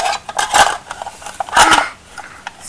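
Pots and pans clattering as someone starts cooking eggs: a few short metallic clanks and scrapes, with two louder bursts among softer knocks and no talking.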